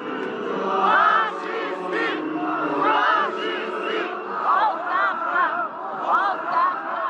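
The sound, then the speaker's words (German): Crowd of protesters shouting slogans in front of city hall in Sofia, Bulgaria. Many loud voices chant together in repeated rising and falling bursts, forming a dense, continuous roar of yelling. “Faschisten, Rücktritt, Verräter. Das rufen Demonstranten vor dem Rathaus der bulgarischen Hauptstadt Sofia.”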